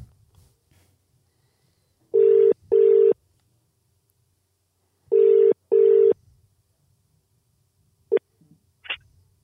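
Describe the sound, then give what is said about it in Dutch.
Telephone ringback as a call tries to reach someone in England: two double rings, each a pair of short, steady buzzing tones, separated by a quiet gap. A few brief faint clicks follow. “proberen te bellen. Ja. Kijken of die opneemt.”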